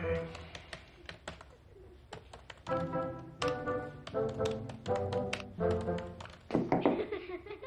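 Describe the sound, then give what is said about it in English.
Rapid typing on a keyboard: many sharp, uneven taps and clicks in quick bursts, with tonal sounds running underneath at times. “He puts on his glasses and begins typing.”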